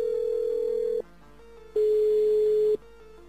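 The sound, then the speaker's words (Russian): Ringing tone of a telephone call being dialed: two steady, even tones of about a second each, separated by a short pause, with the second tone louder. “Давайте попробуем позвонить. Точно такой же запрос.”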